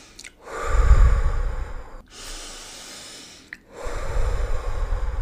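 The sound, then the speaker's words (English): Deep breaths are drawn in and pushed out during a guided breathing exercise. A few slow, airy rushes of air alternate between inhale and exhale, fairly loud, with no talking over them. “So take a couple deep breaths in and out.”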